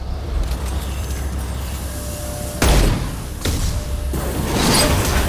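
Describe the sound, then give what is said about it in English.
An explosive container blows up in a video game with a sudden heavy blast. A couple of further thudding bursts follow over a low, steady background rumble. “Aha! So, blowing up the explosive container caused it to push a barrier out of the way.”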